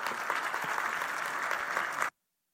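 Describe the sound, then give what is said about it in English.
Audience applause in a church greets a guest as he comes up to the front. Brisk, even clapping runs for about two seconds and then cuts off abruptly into silence. “Give Brian a hand as he comes up.”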